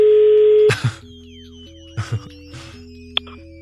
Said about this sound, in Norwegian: Okay, vi har ringt vanntelefonen.